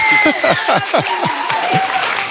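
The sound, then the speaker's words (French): Loud audience applause at the close of a live morning show, with clapping throughout and several falling whoops or cheers from the crowd cutting through in quick succession. “Vous pouvez encore l'applaudir.”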